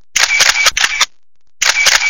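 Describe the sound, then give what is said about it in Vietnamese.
Camera shutter clicks as photos are taken, a few loud, rapid bursts of crisp mechanical clicking grouped into clusters, with a short silent gap before the last cluster. “bấm máy chụp một vài bức ảnh từ phía sau lưng Trang Điệp”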